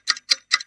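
A clock ticks in a steady rhythm: three crisp, evenly spaced ticks and the start of a fourth, fairly faint and alone.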